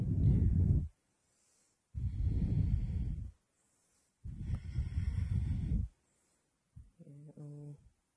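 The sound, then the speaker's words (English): Deep Ujjayi breathing during a yoga class: three long, rough, hissing breaths, each lasting about a second, separated by short silences and heard alone. “Deep Ujjayi breath.”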